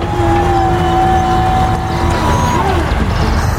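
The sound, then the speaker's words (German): A shovel vehicle's engine drones as it pulls away in first gear, a loud, steady low rumble with a thin whine that dips in pitch near the end. “Ich mach mal den ersten Gang rein. Es klappt. Wir fahren.”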